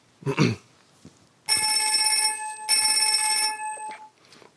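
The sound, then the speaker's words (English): A synthesized telephone bell built by additive synthesis rings in two loud bursts of bright, steady metallic tones, each just under a second long, separated by a brief gap and heard alone. “Here's a classic additive synthesis model. It's a telephone bell. Sounds like this.”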